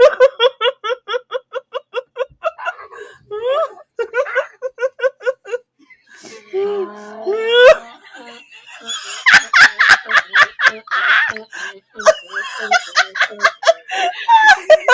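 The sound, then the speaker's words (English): A donkey brays at a dog near an electric fence in a long rhythmic series of wheezing, honking cries. After a short pause, many rapid, loud, harsh bursts follow. “That's the sound of a donkey laughing his ass off at a dog who poked his nose at the electric fence.”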